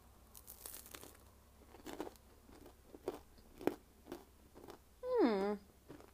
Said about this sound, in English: Okay, let's see how do they taste with a little icing sugar.